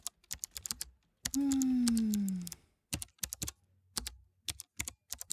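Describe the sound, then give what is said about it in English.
Typing on a computer keyboard, with many quick key clicks in short bursts, broken in the middle by a sustained tonal hum that slides down in pitch before the tapping resumes. “Wait a second. You're going to type?”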